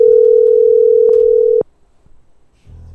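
A steady single telephone tone signals a rejected call. It holds one even pitch for about a second and a half, then cuts off abruptly, leaving only faint low noise.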